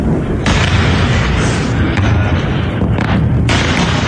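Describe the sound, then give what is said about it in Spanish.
Explosions from a ballistic missile attack on bases in Jordan, where missiles were intercepted, produce a loud, dense booming roar. It fills the whole clip without a quiet gap, with only slight dips in intensity. “También han atacado bases en Jordania, donde se han interceptado hasta 18 misiles balísticos. Este era el sonido.”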